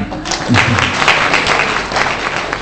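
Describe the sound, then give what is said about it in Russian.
An audience applauds with steady, loud, dense clapping that carries on throughout. “Давайте похлопаем.”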